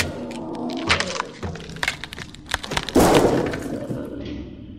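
A lamp smashes with breaking glass: a quick run of sharp cracks and thuds, then a loud, harsh burst of shattering around the middle that dies into fainter clinks.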